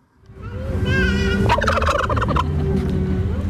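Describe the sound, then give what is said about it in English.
Turkeys gobbling at a White House turkey pardon ceremony: a loud, harmonic call is followed by a rapid, rattling gobble burst, then the sound trails off. “That is the sound of actual turkeys, which President Trump pardoned in the time-honored White House tradition.”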